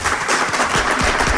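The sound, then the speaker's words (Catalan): An audience applauds at a book presentation event, giving a brief, loud burst of dense clapping with a few sharper individual claps standing out. “Un aplaudiment, no?”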